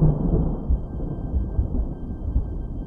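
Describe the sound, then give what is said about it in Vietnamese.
Rumbling thunder from a lightning strike over a mountain forest: a dense, muffled low roar that rolls on throughout, with a few deeper thumps. “một tia sét ầm ầm xẹt xuống phá tan sự yên tĩnh của núi rừng. Tiếng sét giữa màn thinh không như sự giận dữ”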